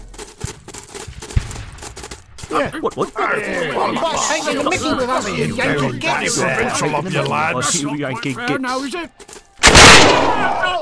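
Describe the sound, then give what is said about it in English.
One loud, sharp gunshot bursts near the end, fired at soldiers in bright red jackets from behind. Before it, a long stretch of voices chatter and chuckle. “Jabez and company would sneak up behind them and shoot them in the back.”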